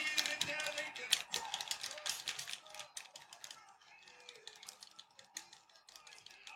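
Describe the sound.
Rapid clicking of game controller buttons pressed over and over during a mixed martial arts video game fight, with many quick, light taps in an uneven rhythm that thin out in the second half.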